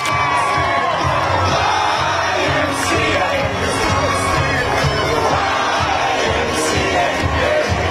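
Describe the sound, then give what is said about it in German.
Supporters celebrate loudly in the street after Trump's election defeat, a dense crowd shouting and cheering in a continuous, undifferentiated din with occasional higher whoops. “Und als seine Niederlage feststand, sangen beiden Anhänger den Song laut auf der Straße.”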